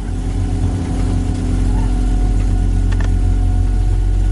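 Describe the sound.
An off-road vehicle's engine runs with a loud, steady, low rumble. Its level lifts slightly after the first moments, then holds even.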